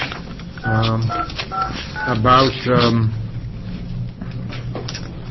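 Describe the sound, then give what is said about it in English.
Telephone keypad tones as a call is dialed to reach a representative, a few short beeps mixed in with a voice talking over them. “We're trying to get Representative Cannon on the phone to talk to us”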